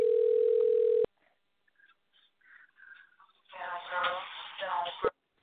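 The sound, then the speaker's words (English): A single steady telephone ringback tone, about a second long, heard while calling someone. It cuts off sharply, and after a short quiet spell muffled voices are heard. “Speaking of your wife, tell her to answer her phone. I'm calling her.”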